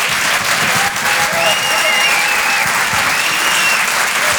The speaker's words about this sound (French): Je vous demande de l'encourager, faites un maximum de bruit s'il vous plaît, pour Guillaume Fosco.